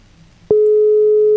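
A steady telephone call tone sounds while a live call is being connected. It starts abruptly after a faint low hum and holds one unbroken, mid-pitched note loudly until the end.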